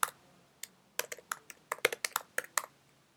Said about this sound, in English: let me just type this in.